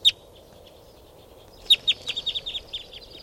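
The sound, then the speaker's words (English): Calls of a mixed bird flock of type 2, 4 and 5 and white-winged birds taking off: after a lone high chirp, a rapid series of many high, clipped chirps follows over a faint background hiss. “So, this is the calls of the flock. They're all taking off now.”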